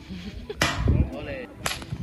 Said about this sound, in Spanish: Bueno, así suena el tiro de piedra con ondas.